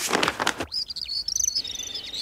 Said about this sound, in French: Il y a un grand arbre. Et sur ce grand arbre sont perchés des dizaines d'oiseaux de toutes les couleurs.